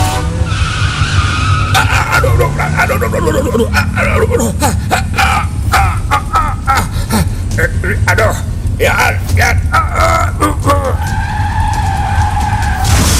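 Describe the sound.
A motorcycle brakes hard and its tires skid, a loud, sustained screech and rough scraping that fills the whole clip, with a voice over it.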